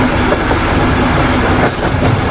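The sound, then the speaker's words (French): A train leaves Oslo station bound for Bergen. A loud, steady rumble and broad roar of rolling stock carries on without a break. “Ce que vous entendez, c'est le train qui quitte la gare d'Oslo et qui va aller jusqu'à Bergen.”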